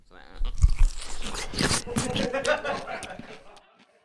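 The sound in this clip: Crunching bites into a dill pickle: a few sharp, loud crunches early on, then continued chewing under voices talking throughout.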